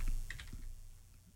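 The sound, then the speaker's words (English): Quick, light clicking of keys typed on a computer keyboard, a few soft taps in a short burst that fade away, heard alone and faint. “I'm just typing here.”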